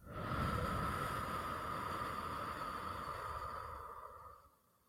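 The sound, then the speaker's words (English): A slow, steady exhale after a held breath during a calming exercise for anxiety: a long, airy breath of even loudness that fades away near the end. “let's just breathe in. Hold it. And breathe out.”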